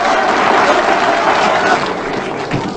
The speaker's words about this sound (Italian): Bravo! 92 minuti di applausi!